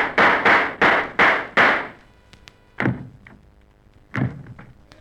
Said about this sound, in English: The 2 sound effects men shot each other.